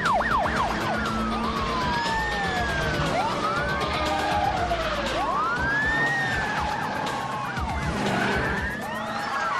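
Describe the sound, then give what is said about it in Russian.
Sirens from a convoy of police cars on a road wail continuously, several overlapping rising and falling tones weaving over a steady rumble of traffic. “По дороге едет вереница полицейских машин со включенными сиренами и мигалками.”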